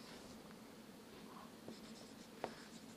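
Pen scratching on paper as a marginal revenue curve is drawn by hand: faint, soft strokes with a slightly sharper scrape near the end, quiet throughout.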